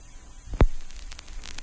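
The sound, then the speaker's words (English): A record needle on a vinyl record gives a low steady hum with hissy surface noise, broken by one sharp, loud pop, followed by faint crackle. “we're actually going to play the song at the proper speed. So let's give it a shot, shall we? Here we go. And you can even hear the needle on the record.”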